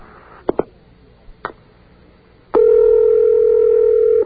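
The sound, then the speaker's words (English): Telephone ringback on an outgoing call: a few faint clicks, then a single loud, steady ring tone that holds for nearly two seconds before cutting off. “Sounds like a good ring to me.”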